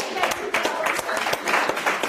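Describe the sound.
Applause from an audience at a lively German-language event, with quick, crisp claps packed into a busy, fairly loud burst that stays steady for its short length.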